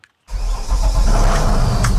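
A river police patrol boat's motor starts up on a reservoir: a brief silence, then the engine catches abruptly and settles into a loud, steady, rumbling run.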